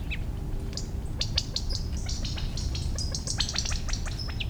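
Quail parents call after a group of half-grown chicks moving through a buckeye shrub, giving short, high chirps and peeping calls in irregular clusters over a steady low background hiss.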